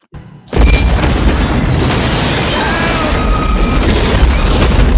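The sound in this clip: A bomb explosion in a film scene in a building with an elevator erupts after a brief quieter lead-in. It is a sudden, very loud, dense blast that holds as a heavy, broad roar for several seconds.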